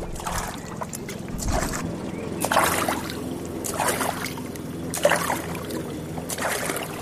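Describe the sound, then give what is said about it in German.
Canoe paddling on the Wakenitz river: soft paddle splashes and water swishes come in an unhurried, fairly even rhythm, a few strokes over a low, steady background murmur. “Lass uns doch mal ein Stück weiter paddeln.”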